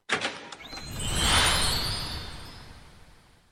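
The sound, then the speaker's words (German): A golden fairy-tale gate opens as a magical sound effect: a few quick bright clicks, then a shimmering whoosh that swells to a peak and slowly fades away. “Und jetzt öffnet sich das goldene Märchentor”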